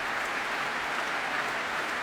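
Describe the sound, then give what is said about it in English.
Audience applause for performers at the Proms, a steady dense wash of clapping that holds at an even level throughout with no clear voices on top. “Well, applause, well, for everybody, really. Everybody applauding each other.”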